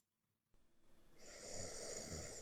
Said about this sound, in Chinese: 不过呢这个录音声不大，给你们听一下啊。我先把歌关了，你们安安静静的听啊，等会儿啊呼噜